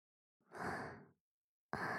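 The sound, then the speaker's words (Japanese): Heavy breathing from a person: one long, soft, airy exhale, a short pause, then another breath beginning, with no speech. “まだふうふう言ってるじゃん。私に怒られて興奮してるわけ。”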